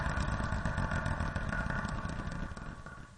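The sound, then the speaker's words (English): A wheel spun to pick a random number gives a fast, continuous clatter of ticking that gradually fades toward the end. “This is a segment where I spin a wheel to get a random number, and then we compare those songs from that spot on both the Americana and college radio charts.”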